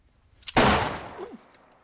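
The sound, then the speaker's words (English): A single gunshot fired by someone popping up out of a trapdoor: one sharp, loud blast after a quiet lead-in, trailing into a noisy decay that fades over nearly a second. “Matheson pops out of the trapdoor and shoots Budlovsky”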